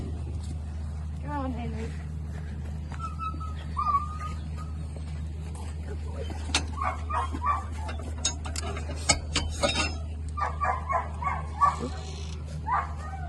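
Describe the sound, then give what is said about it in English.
A June puppy whimpering and yipping as it runs around: small, high yelps and whines come in scattered bursts over a steady low hum, with people talking. “He's a June puppy. Okay, well, we'll watch him fly around, hopefully.”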